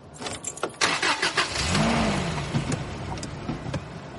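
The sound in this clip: A car engine starts and the car drives away: a few sharp mechanical bursts, then a steady engine drone that rises and eases off. No voices are present.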